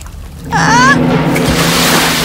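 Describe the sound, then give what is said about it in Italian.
Splash of falling into salty sea water, starting abruptly with a short whistling swoop, then a loud, steady rush of churning water and surf that carries on to the end. “Ah! Oh! Acqua salata? Ah! Sono in qualche modo caduta in mare?”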